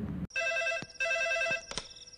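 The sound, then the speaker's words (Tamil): A phone rings with an incoming call: a bright electronic ringtone of steady, high, layered tones in repeated bursts separated by brief gaps, fairly loud and with no voices. “அப்போ frame பிரேம்கிட்டேருந்து கால் வந்தது”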